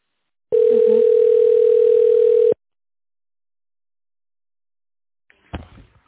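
A steady telephone tone sounds while a call is being transferred, one continuous mid-pitched beep lasting about two seconds, followed by silence and then a brief click and rustle on the line.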